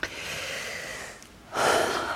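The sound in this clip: A woman moaning in breathy, airy exhalations, two drawn-out breaths separated by a short pause, the second louder and fuller, fairly faint overall.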